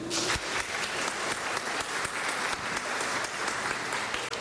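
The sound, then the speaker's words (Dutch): An audience at a talent show applauds, a dense, even clatter of many hands clapping that holds steady and loud throughout with no voices. “Nog een applausje.”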